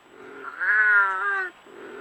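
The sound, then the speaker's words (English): A wild cat, Britain's only native wild cat, gives a single drawn-out, wavering yowl lasting about a second, with softer low cries just before and after it. “Efforts to revive the only native cats still found in the wild in Britain.”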